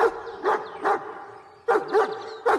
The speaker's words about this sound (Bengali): আর সঙ্গে সঙ্গে ভেসে এলো গুরু গম্ভীর গলায় ভয়ঙ্কর কুকুরের ডাক।